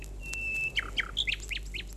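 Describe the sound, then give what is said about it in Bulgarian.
A nightingale sings hidden among the leaves of a tree, a faint, thin steady whistle followed by a run of quick, high chirps that dip in pitch, with no voices. “на едно дърво, скрит в листата, пее Славей.”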